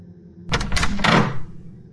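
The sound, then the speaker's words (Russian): A door slowly opens with a single scraping, rustling burst lasting about a second, after which it falls quiet. “Дверь медленно отворилась.”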